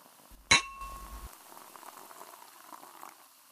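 One bright clink of glasses touching in a drinking toast, a sharp strike with a short ringing tone that fades, followed by a faint, steady fizzing bubble of liquid.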